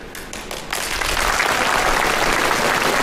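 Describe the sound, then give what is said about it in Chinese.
Audience applause for performers taking the stage. A few scattered claps grow into loud, steady clapping that holds to the end. “都鼓掌了，走啊。”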